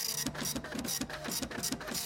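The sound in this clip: A printer prints a letter with a quick, even run of faint mechanical clicks and ticking over a low whir. The pattern repeats steadily throughout.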